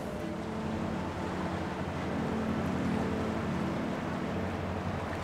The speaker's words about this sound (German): Fahren wir hier gleich durch den Templiner See, und dann weiter die Potsdamer Havel lang bis nach Werder.